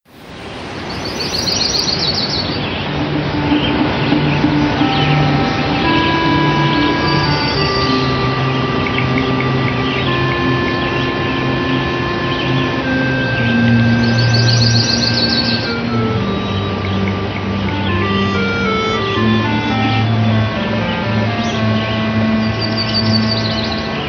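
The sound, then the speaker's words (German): Chirping bird sound effects layered into the grassland-level background music of a roughly 30-year-old video game. A steady, upbeat synthesized melody and bass run throughout, with short, faint chirps surfacing above them now and then. “Und es gibt einige Hintergrundgeräusche und Soundeffekte dort. Also seid nicht verwundert, wenn ihr ein paar Vögel zwitschern hört.”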